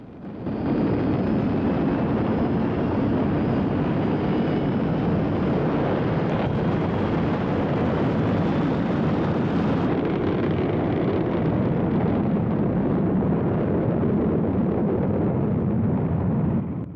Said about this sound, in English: The shuttle's engines fire, and the spacecraft blasts off, creeping slowly up out of its hangar.